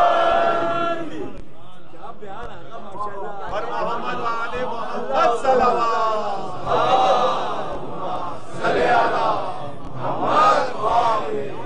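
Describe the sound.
Crowd chanting in response to the Naara-e-Haidari slogan: many voices shout together in a sustained loud roar, rising into several stronger surges.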